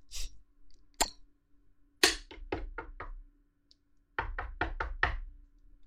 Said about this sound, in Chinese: 你妈又来敲门了。